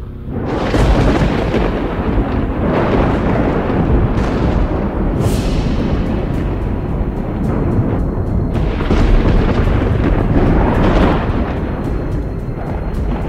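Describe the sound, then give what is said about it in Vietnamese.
Thunder crashing down from the sky as one sustained, loud, dense rumble with no break, with a few sharper cracks bursting through the roar. “Lập tức sấm sét từ trên trời theo lệnh thần chú mà giáng xuống thành một bức tường chặn lại đám lâm tặc.”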